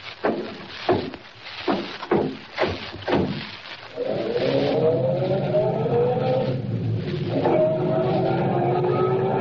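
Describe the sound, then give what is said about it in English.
Car driving off at night: several sharp knocks and thumps come first, then the engine catches and runs, its tone climbing as it accelerates and climbing again after a gear change. “We'll drive on to the town and find a place to put up for the night.”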